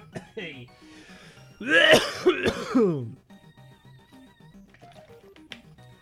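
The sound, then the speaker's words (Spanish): Harsh coughing and throat clearing from a person, breaking out in a couple of loud, rough bursts between stretches of ordinary talk. “un momentito que me voy a morir tosiendo”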